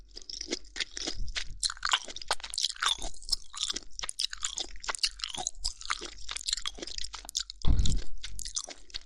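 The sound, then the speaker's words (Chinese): Crunchy, juicy steamed food is chewed close up, giving many sharp, crisp bites and crunches in an irregular rhythm, with one especially loud crunch near the end and no talk. “好脆呀，而且清蒸的也不会有鲜血流下来呢。啊，倒是有很多汁儿。”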